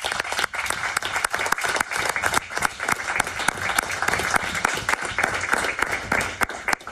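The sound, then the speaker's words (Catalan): Applause in memory of a deceased man at a gathering in Premià de Mar: many hands clap in a dense, crackling stream that holds for about seven seconds, with the level rising and falling slightly. “jo crec que un aplaudiment a la memòria del senyor Miquel Monclús”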